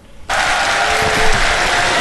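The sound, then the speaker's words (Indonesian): Audience applause rises abruptly after a brief quiet moment into loud, dense, steady clapping that holds without a break to the end. “Tepuk tangan dulu Tepuk tangan dulu”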